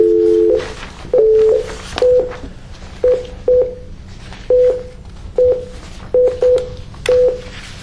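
Telephone number being dialed on a keypad: a string of about ten short touch-tone beeps, each a steady pure-toned chirp, spaced unevenly with brief pauses between them against a low background hum.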